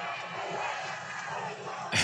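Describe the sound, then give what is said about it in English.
A rally crowd voices loud disapproval, a continuous roar of jeering voices that holds steady and then swells sharply at the very end. “The crowd's not having it.”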